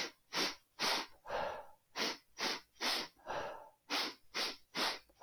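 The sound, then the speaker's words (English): Rapid breathing drill: sets of three quick, sharp sniffs in through the nose, each set followed by a softer, longer breath out through the mouth, repeated in an even rhythm with no speech. “So three short breaths in through the nose, soft breath out through the mouth.”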